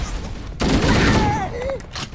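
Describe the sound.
Gunfire in a shooter video game on a tutorial level: a dense, continuous burst of rapid shots starts suddenly, with a man talking over it.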